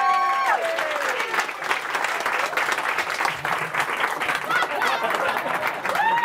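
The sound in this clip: Audience applause at a business event: dense, steady clapping that fills the whole clip at an even level, with a few voices and whoop-like calls rising above it.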